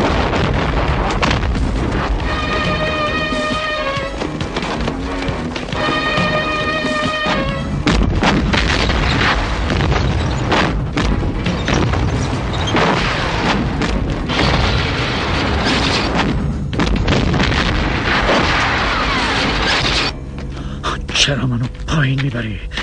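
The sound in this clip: Artillery barrage in a wartime battle scene: heavy booms and rumbling blasts pound on almost continuously and loudly, with sustained musical tones early on and voices mixed in.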